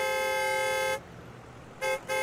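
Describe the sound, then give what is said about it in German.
A car horn honks three times: one long, steady blast of about a second, then, after a pause, two short quick toots at the same loud, even pitch. “Drück mal auf die Hupe.”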